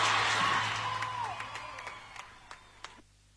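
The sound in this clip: Audience applause for a performer called Coco, already fading as it begins, thinning to a few scattered individual claps near the end before cutting to silence.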